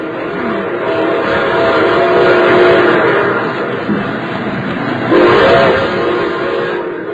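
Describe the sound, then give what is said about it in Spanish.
A passenger train travels in Mexico with a steady, loud rumble: a continuous dense roar, a thin high whine on top, and a slight swell in level near the end. “En el tren de Maredo viajaba hacia Monterrey María Eugenia García, después de haberlo abordado en San Luis Potosí.”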